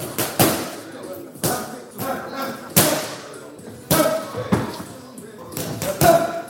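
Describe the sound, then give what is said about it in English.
Heavy thuds and slaps of strikes during training at a martial arts centre turned into a fight facility: many sharp, loud impacts at irregular intervals, each ringing briefly before the next blow. “This is the Loughborough Martial Arts Centre.”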